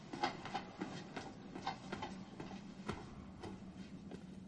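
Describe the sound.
Ambience of a metro station: a quiet, steady low hum under a layer of light clatter and rattling, like rolling rail noise, with no voices.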